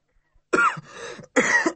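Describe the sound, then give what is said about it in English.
A person coughs: two loud, harsh bursts with a softer, longer throat-clearing rasp between them, alone in near silence. “Please pardon me. I just coughed. I just coughed.”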